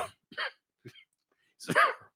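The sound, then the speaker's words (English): A few short, dry coughs sound alone against silence, spaced unevenly, with the last one the longest and loudest. “excuse me, cough going around.”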